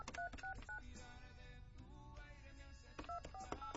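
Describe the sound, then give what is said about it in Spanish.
Telephone number being dialed: short, bright keypad beeps in two quick bursts, a few at the start and several more near the end, over loud music. “A ver, vamos a marcar 55.”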